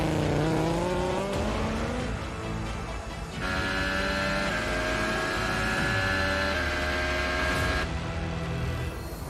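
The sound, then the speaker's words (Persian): Red Bull Formula 1 race car engine at full throttle: a loud, high-revving scream that climbs in pitch, drops abruptly at gear changes, then holds a steady piercing whine. “به نظر نمیاد که ورشتپن سرعتش رو کم کرده باشه. هر روز داره تا آخر گاز میده تا زمان همیتون رو بزنه.”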